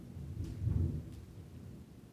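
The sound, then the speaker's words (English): Thunder rolls as a low, dull rumble that swells to a peak and then fades into a steady, softer roar, with no voices over it. “could you hear the thunder?”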